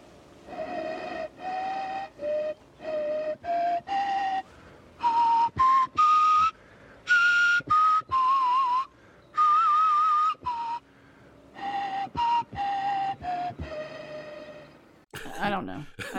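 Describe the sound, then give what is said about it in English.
A bone flute made from a vulture's radius plays short pentatonic tunes: many clear, breathy notes in phrases that climb higher toward the middle, with a wavering trill, then step back down. “He rocks the bone flute, and you quickly realize that is made of bone, I believe, right? It's from the radius of a vulture.”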